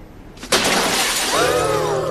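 A mirror shatters with one sharp, loud crash after a brief quiet moment, followed by a sustained bright tinkling and ringing of falling glass pieces.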